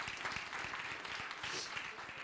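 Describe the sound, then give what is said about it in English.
Faint, brief clapping from a church audience during a sermon, with a few sharper individual claps standing out from a soft, uneven patter. “Give the Lord a clap.”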